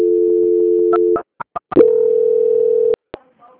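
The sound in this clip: Telephone line tones during a call transfer: a steady held tone breaks into a few short clicks, then another long, even tone plays before cutting off, followed by faint brief blips.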